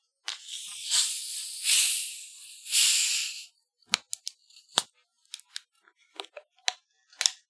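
Soda cans of Red Pop are cracked open, giving three long fizzing hisses one after another, followed by many small, sharp clicks and taps.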